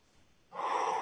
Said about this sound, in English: So take a deep breath in.